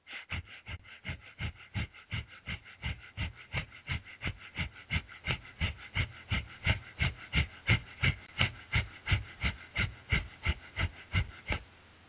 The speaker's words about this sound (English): Breathing is done rapidly through the nose with equal emphasis on the inhalation and exhalation, like a very fast sniffing.